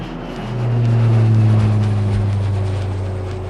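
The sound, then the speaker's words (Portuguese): A small jet takes off in a show's intro sting, a low, steady engine drone that swells after the first half-second and then holds loud and even to the end, with no voices. “Bora de vinheta? Mas não esquece, veja se a mesinha da sua frente está devidamente presa e aperte os cintos, pois esse jatinho vai decolar.”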